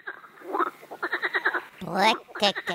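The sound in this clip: Frog croaking: rattling series of rapid, evenly spaced pulses, broken by a louder, broader croak near the end before the quick pulsed calls resume.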